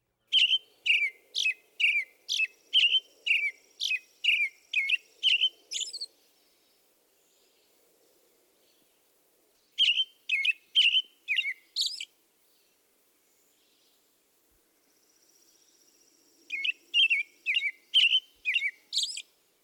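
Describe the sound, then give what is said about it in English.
American robin song: clear, bright chirping phrases in three bursts, a long run of rapid notes, then two shorter runs, with quiet gaps between. “Songs may be described as consistently repeated sounds which form a pattern. Here is the classic song of the American robin.”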